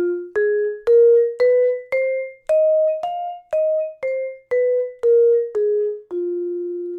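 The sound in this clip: A blues scale in F played note by note on an instrument: about a dozen clear, sustained tones climb steadily in pitch, then step back down to the starting note, evenly paced and heard alone.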